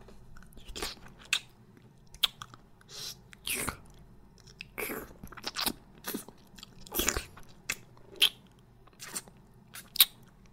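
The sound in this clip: Biting and chewing of a meat bun: a run of irregular crunchy bites and soft wet mouth sounds, some sharper than others, separated by quiet gaps with no talk.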